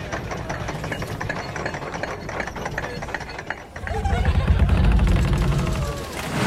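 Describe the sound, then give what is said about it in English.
Ride on the Loch Ness Monster roller coaster at Busch Gardens in Williamsburg, Virginia: continuous mechanical clatter and rumble that dips briefly midway, then swells into a louder, deeper roar. “What you've just heard is a very real memory for me. Of a trip to Busch Gardens in Williamsburg, Virginia, to ride the Loch Ness Monster,”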